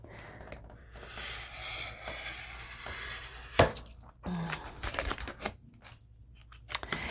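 A magazine being cut with a long blade, heard as faint crisp snipping and slicing of paper in irregular strokes, with light rustling of pages between cuts.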